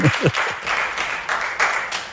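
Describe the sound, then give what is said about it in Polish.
Studio applause and clapping break out on a radio program, a dense, steady patter of many hands sustained at moderate loudness with a few sharper bursts, a faint high tone running underneath throughout. “Prosimy o klaski, prosimy o owację.”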